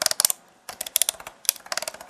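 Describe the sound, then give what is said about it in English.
Clicking of ratcheted action-figure joints, such as shoulder, elbow and bicep, being moved through their positions: many small, sharp clicks in quick bursts, separated by brief pauses. “the best part of all this, right, is that a lot of the joints are ratcheted.”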